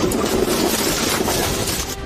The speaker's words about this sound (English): Another car slammed into the family's pickup truck.